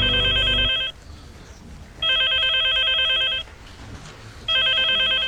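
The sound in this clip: A telephone ringing for an incoming call: bursts of bright, shrill electronic trilling separated by quiet gaps. Two full rings are heard, and a third is cut off at the end.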